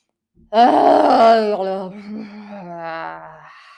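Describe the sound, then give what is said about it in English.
A vocal moan made through toning, an audible exhale voiced as one sustained, humming tone. It rises sharply, holds strong and steady for about three seconds, then thins out and fades, heard alone. “So when I'm doing that kind of audible exhale, I'm really letting whatever sound wants to come out,”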